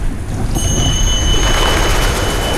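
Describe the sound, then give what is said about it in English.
A train running through open high-plateau wilderness: a loud, continuous low rumble with a thin, steady high whine that starts after the first half second. “A train runs toward the horizon.”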